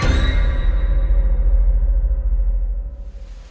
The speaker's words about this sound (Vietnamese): Hôm nay trời mưa không dứt.